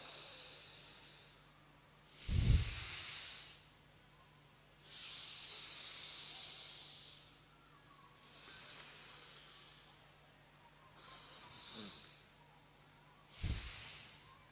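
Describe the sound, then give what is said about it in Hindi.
Slow, deep breathing during a yoga pranayama exercise, done while raising the head: long, airy, hissing breaths spaced several seconds apart, with a couple of short, heavier puffs, all faint and without talk. “अभी सांस लेंगे, sir को ऊपर करेंगे,”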